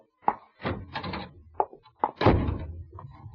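A door is shut and locked, heard as a series of sharp thunks and clunks, then a longer, heavier rattling knock near the end.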